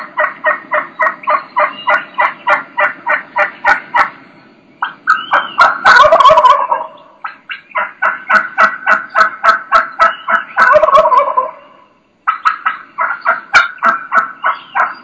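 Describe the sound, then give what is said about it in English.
Wild turkey gobbler cutting calls: long runs of rapid, sharp, cluck-like notes in a steady driving rhythm, broken twice by louder, rolling gobbling bursts before the clipped notes resume. No voices are heard. “Okay, let me pause that real quick. You heard that? Just that's where you start getting that cutting. Cutting is very similar to clucks.”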